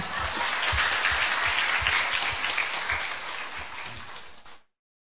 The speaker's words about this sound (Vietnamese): chấm dứt phần cựu ước và bắt đầu chính thức bước sang phần tân ước mà Chúa cho vẫn còn bền đỗ như thế này, thì phải tự vỗ tay mà khen mình.